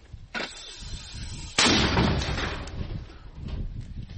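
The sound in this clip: A mortar battery firing: a lighter blast comes first, then a heavy, booming shot whose loud, rumbling decay fades slowly before swelling slightly again.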